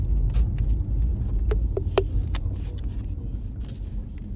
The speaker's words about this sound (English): So yeah, I'm driving to the skate park and